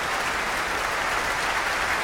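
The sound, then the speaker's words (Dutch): Dense, steady applause from the audience in a concert hall's main auditorium after a performance of Saint-Saëns' Violin Concerto No. 3 in B minor with the Residentie Orkest. It sounds even and sustained throughout, with no talk over it. “Groot, groot applaus hier in de grote zaal voor violiste Noah Wildschut.”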